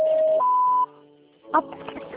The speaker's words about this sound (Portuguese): O chamado está sendo encaminhado para a caixa de mensagens e estará sujeito a cobranças após o sinal.